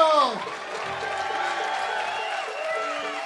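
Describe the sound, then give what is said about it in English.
A crowd clapping and cheering for the band the String Dusters at a music event, with whoops and shouting voices over a steady applause bed and a louder burst at the very start. “the String Dusters, the infamous String Dusters. Let's give them a round of applause.”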